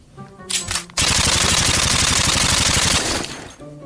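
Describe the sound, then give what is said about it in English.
Sustained machine gun fire in a daytime trench battle: a loud, rapid rattle of many shots lasting about two and a half seconds, preceded by a couple of brief bursts and tapering off at the end. “Exterior trench, day. The left flank. We hear artillery and machine gun fire.”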